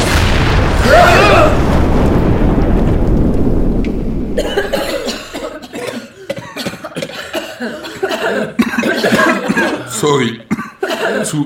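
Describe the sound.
Harsh coughing from someone who has breathed in too much smoke, a rough sustained fit lasting a few seconds, followed by people talking.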